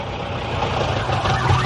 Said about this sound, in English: Goodness me, what a long, sleek silver motor car.